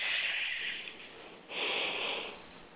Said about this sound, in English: So what I'd like you to do now is I'd like you to just take a nice deep breath in.